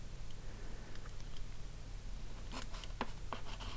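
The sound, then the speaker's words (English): Pen scratching as a name is written on a map, faint soft strokes that turn into a few sharper, brisk scratches near the end, with no talk. “There are really a lot of names here on all the maps, but at least I have to write Arnor.”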